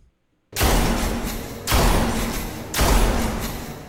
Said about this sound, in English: That gun sounded. It's a shotgun. Shotgun.